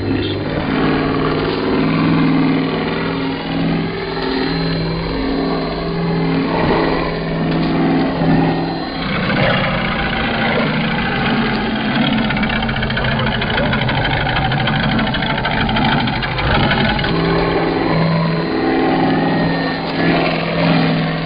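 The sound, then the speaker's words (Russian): A rotor-screw engine runs on an ice machine built for power cutting and grip on ice, giving a steady, loud mechanical drone with a low hum that continues without a break. “мы обратились к применению нового роторно-винтового двигателя, который позволял нам обеспечивать хорошее сцепление со льдом, перейти на силовое резание”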